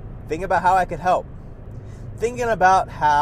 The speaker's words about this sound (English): I'm sorry for any background noise. I'm currently driving.